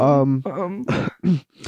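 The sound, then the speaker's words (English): Throat clearing, heard as a few voiced, grunting bursts in quick succession, rough and moderately loud. “just clearing throat, drinking water”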